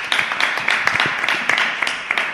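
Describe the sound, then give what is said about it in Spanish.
A small group applauds during a discussion about education with a short burst of scattered, crisp claps at moderate loudness. “Bueno, muy bien, totalmente. Un aplauso.”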